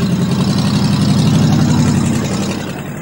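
A car engine runs steadily, with a loud, continuous low rumble and a broad roar that eases slightly toward the end.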